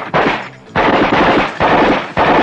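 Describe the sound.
Rapid automatic gunfire as police open fire on a suspected killer: loud, dense crackling bursts, about five sustained volleys separated by brief gaps, with no talk over them.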